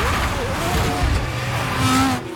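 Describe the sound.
A Formula One race car goes off the track and back onto it, its engine roaring with shifting tones and a hint of tyre noise, loud throughout before cutting off abruptly at the end.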